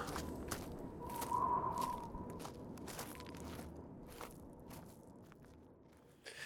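Footsteps of someone walking back from the mountains: many steady, evenly paced crunching steps, fairly faint, over a low background rumble, with no voices.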